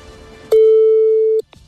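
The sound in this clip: Telephone ringing tone heard while placing a call: a single steady, mid-pitched electronic tone lasting about a second, ending abruptly and followed by a faint click.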